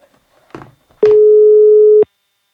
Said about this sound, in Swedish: Vi frågar henne, ska vi ringa? Ska vi ringa?